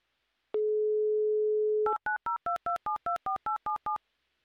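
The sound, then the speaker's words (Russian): A telephone dial tone hums steadily for over a second as a call is placed, then a quick series of short two-tone touch-tone beeps follows as the number is keyed in, with no talking. “но то, что мы уже готовы звонить, это совершенно точно, и делаем это прямо сейчас.”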